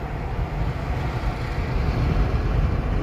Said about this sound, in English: And I'm sure y'all hear all kinds of other noises going on. I'm recording this as I'm driving down the road on my way home from work.